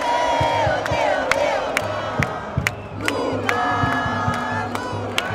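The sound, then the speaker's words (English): A large crowd at a pro-government rally in São Paulo, Brazil, chants Lula's name: loud, sustained massed voices with rhythmic shouted accents recurring throughout. “That's the sound of the crowd coming out to support Lula, who was there. You can hear them chanting, Lula, Lula.”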